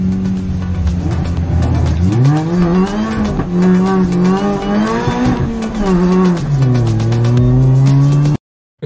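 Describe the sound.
Racing car engine at a race start, a loud steady drone that climbs sharply in pitch around two seconds in, holds high, dips, then rises again before cutting off abruptly.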